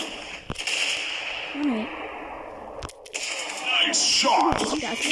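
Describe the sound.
Gunshots in a video game: a few sharp, isolated cracks spaced seconds apart, standing out over a steady bed of busy game noise.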